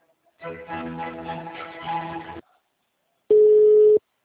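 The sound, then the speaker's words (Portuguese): A telephone transfer tone plays while a caller is on hold with a Peugeot customer service line. A two-second stretch of layered tonal sound is followed by a pause, then one loud, steady mid-pitched tone lasting under a second. “Por favor, aguarde enquanto eu transfiro sua ligação.”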